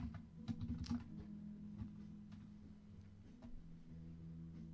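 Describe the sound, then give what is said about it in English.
Rapid, light keystrokes on a computer keyboard as a blog entry is written, with many faint clicks in an uneven rhythm over a steady low hum. “I am writing up a blog entry about my show today right now. As you can probably tell, perhaps.”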